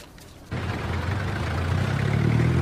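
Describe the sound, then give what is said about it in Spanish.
Engine of a tow truck hauling a car away outside a pastry shop. It starts abruptly after a brief quiet moment, then settles into a steady low rumble that grows slightly louder. “afuera la camioneta de remolque se lleva su auto.”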